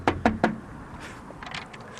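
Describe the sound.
Three sharp knocks on a front door in quick succession, each a crisp, loud rap, followed by quieter faint rustling.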